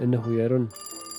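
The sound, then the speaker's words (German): A telephone rings in quick, bright pulsing trills that begin right after a brief spoken voice and continue faintly to the end. “Oha, hier klingelt es doch.”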